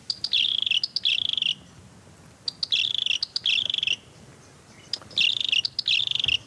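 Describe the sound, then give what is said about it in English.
Red-capped robin calls, a bird of dry open woodland: three bouts of rapid, high-pitched trilling chirps, each bout split into two quick phrases, loud and clear over a faint hiss with short pauses between. “It is the red-capped robin.”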